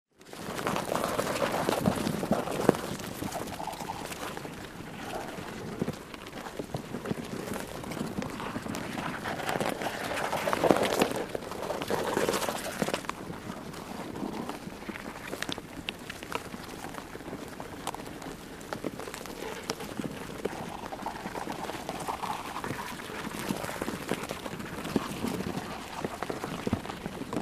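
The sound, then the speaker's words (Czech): Ants running wildly over a dry oak leaf lying on top of an anthill: a dense, continuous crackling and rustling patter, like fine rain on a surface, steady and fairly soft for nearly half a minute with slight swells. “Je to totiž zvuk, který vydává suchý dubový list, který spadl přímo na vrchol mraveniště a po kterém divoce pobíhají mravenci.”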